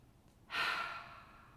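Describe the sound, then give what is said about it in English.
A single deep breath, taken during a flute players' warm-up, comes as a breathy rush that swells quickly, then thins out and fades slowly, with no talk. “Maybe a nice deep breath.”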